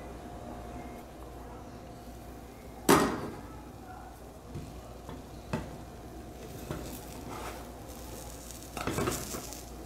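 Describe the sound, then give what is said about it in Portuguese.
Food frying in a covered pan after being turned, a faint, steady sizzling hiss broken by one loud metallic clank and a few softer knocks of pan and lid. “Vou tampar novamente e deixar ela cozinhar desse lado também.”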